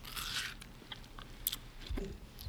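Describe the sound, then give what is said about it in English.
Faint, wet crunching bites as someone chomps on watermelon, a few irregular crisp crunches and chewing sounds with no talk. “He don't have no headphones on, so he can't hear himself chomping on the watermelon.”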